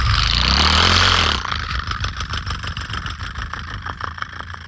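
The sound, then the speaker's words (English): A human voice imitates a motorcycle engine, starting with a loud, rough, breathy roar, then dropping into a fast, rhythmic sputtering putter like an idling motor, sustained without words. “can you do a motorcycle sound?”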